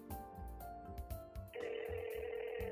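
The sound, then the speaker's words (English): A telephone being dialed: steady electronic tones hold through the first half, then a louder, denser tone carries to the end. “It's time to dial 911, I mean plus 91, to Prashanthi Nilayam.”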